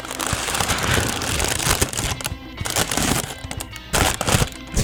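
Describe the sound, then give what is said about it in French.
Parchment paper being crinkled, giving a loud, dense, continuous crackling rustle with sharp crisp snaps throughout and no voices. “On entend le papier, la subtilité du papier, comment t'appelles ça? Parchemin. Oui. Fais-nous entendre le papier parchemin.”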